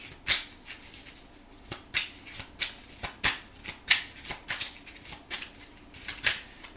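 Tarot cards are shuffled by hand in many quick, crisp riffles and soft slaps. The rhythm is steady but uneven, fairly faint, and no voice is heard over it.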